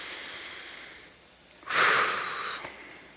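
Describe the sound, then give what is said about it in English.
A person takes one deep breath in and lets it out, a loud airy rush of breath that swells and then fades after a quiet pause, with no talking. “Take a deep breath and exhale.”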